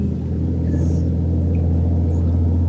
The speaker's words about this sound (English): All is singing with us this morning. The eagles joined in, the sound of trucks, the crows,